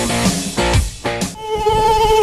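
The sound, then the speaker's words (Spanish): Flies and mosquitoes buzzing indoors in warm weather, a loud, continuous, droning hum with layered tones that shift slightly, heard alone without voices. “Ya llega el buen tiempo y con él, los visitantes no deseados en tu hogar. Las moscas y los mosquitos.”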